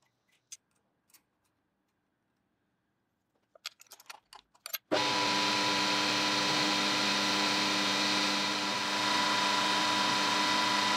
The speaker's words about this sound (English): The first thing I need to do, though, is cut a couple more threads onto these center bolts.